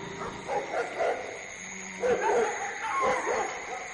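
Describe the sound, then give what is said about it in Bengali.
Dogs quarreling and barking close by: a few sharp barks and yelping bursts at moderate loudness, with short gaps of quieter background between them. “প্রশ্ন করার আগেই কাছে কোথায় যেন কুকুরের ঝগড়া শুনলাম।”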